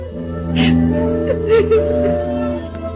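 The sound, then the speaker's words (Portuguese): A woman sobs convulsively in her room in a palace, with wavering, whimpering cries and breathy catches that swell and ease, fairly loud throughout. “chora convulsivamente em seu aposento”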